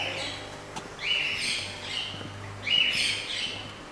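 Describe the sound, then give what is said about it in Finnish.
Real live wild birds calling: a few bright chirps and two louder, rising squawk-like calls over a steady low hum. “Onko täällä äänitehosteita vai onko nämä aitoja lintuja? Nämä on aidot linnut tässä.”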